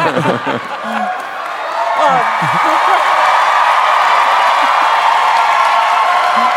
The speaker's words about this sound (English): So they don't just cheer. It's all right, I love these people. They cheer.